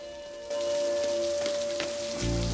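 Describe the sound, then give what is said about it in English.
Steady rain falls on a metal stair, a dense, even hiss of drops that starts abruptly after a brief quiet moment and carries on without pause. “Sitting on a metal stair in the rain”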